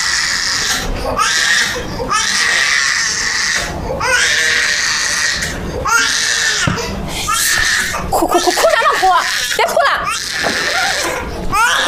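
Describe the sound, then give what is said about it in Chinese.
A child cries in a food shop, in repeated wailing bursts with wavering pitch. Voices can be heard around the crying. “别哭了！”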